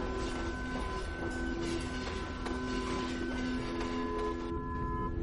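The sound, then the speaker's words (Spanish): A subway train rumbles past in a steady, unbroken roar, with a sustained hum and thin squealing tones riding on top from start to finish. “En un plano fijo, pasa el metro con su contraste de luz y sombra.”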